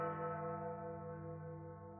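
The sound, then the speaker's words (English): Large bell ringing, a sustained rich humming tone with layered overtones that fades slowly and evenly throughout. “Get it? Ring. Like the ringing of a bell.”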